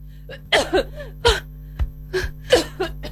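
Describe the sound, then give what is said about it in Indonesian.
A woman coughs repeatedly in several short, harsh bursts spread across a few seconds, with a steady low hum underneath. “Batuk ibu kok tidak berhenti.”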